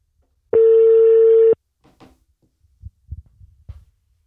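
Telephone ringback tone while calling a guest. One steady, loud ring tone lasts about a second, followed by near silence with a few faint low noises.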